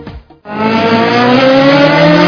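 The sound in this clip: A Yamaha motorcycle engine revs hard. A brief sputter is followed by a loud, sustained, buzzing roar with a dense stack of harmonics held steady to the end. No voices.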